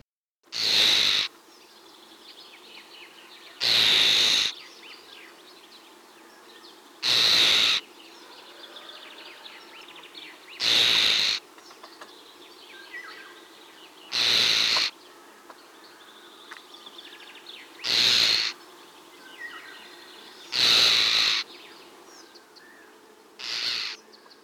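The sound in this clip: Harsh, grating alarm calls from a bird defending its nest come as a regular series of loud rasping bursts, each about a second long and spaced roughly three seconds apart, over a faint background.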